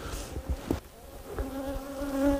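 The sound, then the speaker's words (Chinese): Buzzing of a large wild honeybee swarm nesting in a tree hollow over a meter long in cold, remote wilderness: a dense, steady droning hum with strong harmonic tones, loud throughout and swelling slightly toward the end. “你想想一米多那得有多少蜂啊，这群蜂肯定是个大群啊”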